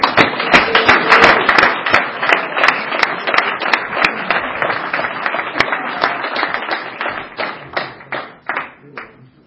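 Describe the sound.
Applause welcoming a speaker at an Alcoholics Anonymous meeting: many sharp hand claps merge into a loud, lively patter that gradually thins and fades toward the end.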